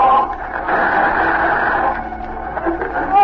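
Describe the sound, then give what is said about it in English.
Radio signal interference: a dense, garbled buzz of static with wavering tones running through it, continuous and fairly loud, cutting off the higher register. “There's the interference again. Turn off the radio.”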